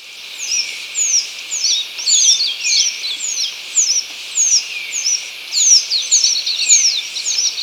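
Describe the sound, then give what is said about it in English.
Song of a northern rufous-naped brush finch: rapid bursts of high, thin, downslurred whistles repeated many times, loud and clear against a quiet background. “one with northern rufous-naped brush finch.”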